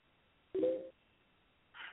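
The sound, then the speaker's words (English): Telephone line tones sound as a call is put through to a caller: a short, lower electronic burst, a pause, then a briefer, higher tone, both quiet against a faint hiss. “I got another caller, man. I'm going to put him through.”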